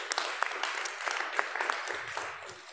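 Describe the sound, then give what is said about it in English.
A church audience claps to welcome visiting guests, an even, brisk round of applause that holds steady throughout. “So anyway, can we give a warm welcome to the Wongs?”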